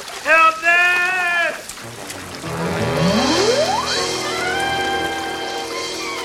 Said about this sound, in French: Irrésistiblement, il est emporté vers la chute d'eau dont le grondement s'amplifie.